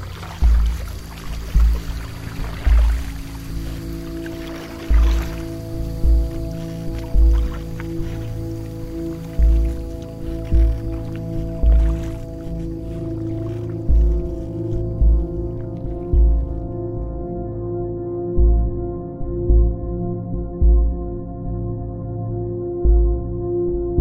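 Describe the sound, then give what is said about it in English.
Paddle strokes pushing a boat through swamp water, with many regular low, soft splashing thumps about every second and a half over a steady humming drone. “Well, then, you better get paddling. Paddle it is.”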